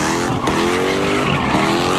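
Car tires squeal and skid at a street takeover in South Los Angeles, a loud, sustained, high-pitched screech with engine roar beneath it, running unbroken throughout.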